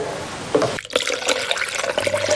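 Hot water poured into rice slurry that is being stirred, a continuous gurgling pour and trickle of liquid that dips briefly before running on, with no talking.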